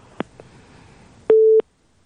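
A telephone busy tone after a caller's line is cut off: two faint clicks, then a single steady mid-pitched beep, followed by silence.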